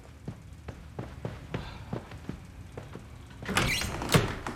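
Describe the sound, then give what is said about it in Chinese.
A door being opened, preceded by a steady run of soft, evenly spaced thuds, then a louder burst of rattling and clattering as the door moves. “赶紧开门。”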